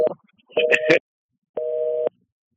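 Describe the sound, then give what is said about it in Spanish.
A telephone busy tone after a dropped call: a few short, steady, mid-pitched beeps, evenly repeated and separated by silence. “Ay, se cayó la llamada de Helen, creo.”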